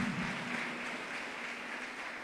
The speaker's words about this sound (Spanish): ¿Cuánto le damos ese aplauso al Señor en esta mañana?